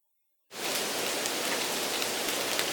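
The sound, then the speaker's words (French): A violent downpour of rain against windows bursts in abruptly, then holds a dense, steady hiss of pouring water with no letup. “Une violente averse éclate, accompagnée de rafales de vent. Les gouttes de pluie tambourinent brutalement contre les vitres.”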